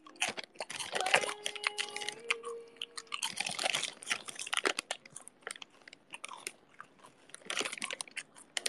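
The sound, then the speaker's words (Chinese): Chewing on slightly stale potato chips that have gone soft from damp: many irregular, crunchy bites and chews at a quiet level, with no talk. “没有刚买的时候那个脆了，有点受潮了。没有封好口，没有给薯片封口费。”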